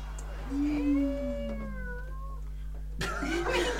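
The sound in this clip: A person imitates a cat with one drawn-out, wavering meow that rises and then slowly falls in pitch. It is followed by a brief burst of noisy sound.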